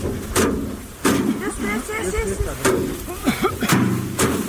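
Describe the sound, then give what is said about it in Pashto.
Farmers in Dand district of Kandahar thresh harvested basil plants to separate the basil, making a handful of heavy, irregular thuds as the bundles are beaten, with people talking over them. “د کندهار په ډنډ ولسوالۍ کې کروندګر خپل راټول سوي د ریحان او حاصلات ټکوي تر څو ریحان له بوټو جلا کړي.”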